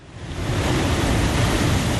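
Ocean waves wash against the Ghanaian coast at Cape Coast, heard as a steady, broad roar of surf that swells briefly at the start and then holds even, with no voices.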